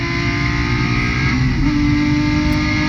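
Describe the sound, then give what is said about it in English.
A race car in a club racing event, its engine a loud, steady, droning roar with a brief shift in pitch midway through. “And it's a PSA club racing? Yeah. Well, here's a 10-year-old video of somebody doing it. So this is what it looks like? Yes.”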